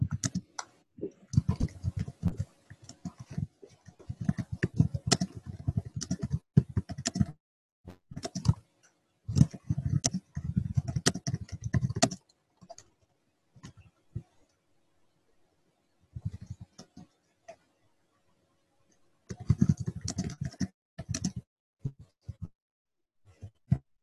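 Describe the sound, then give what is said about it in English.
Someone types a comment on a computer keyboard: quiet bursts of rapid key clicks separated by pauses, with several flurries of keystrokes and stretches of silence between them. “Let me find my window where I can type that in as a comment. There it is. Yeah, I will type that in as a comment.”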